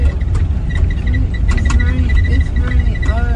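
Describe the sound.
A bus driving, heard as a steady low rumble of engine and road noise that continues throughout, with faint higher tones drifting above it.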